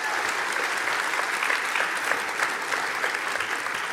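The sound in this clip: An audience at a Kingsway church service applauds to welcome a speaker to the stage, with dense, steady clapping at an even level throughout.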